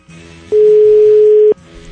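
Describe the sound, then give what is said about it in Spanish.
A telephone dial tone sounds while a call is being redialed: one steady, loud, mid-pitched tone lasting about a second, with only a faint background before and after. “No, yo tengo que marcar otra vez.”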